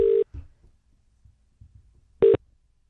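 Telephone number being dialed to the 018 directory line: two short electronic tones about two seconds apart, with faint low knocks between them.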